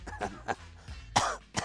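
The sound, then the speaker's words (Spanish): Faint coughing in a few short, breathy bursts spread unevenly across the moment, with nothing else heard between them. “ya estamos con las toses”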